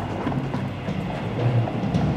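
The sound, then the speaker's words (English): The hooves of General Custer's horse beat a steady clip-clop under a thick, continuous rumbling noise. “In the middle, General Custer, sitting on his horse. Foam and white chalk salt sweat covering the horse's skin.”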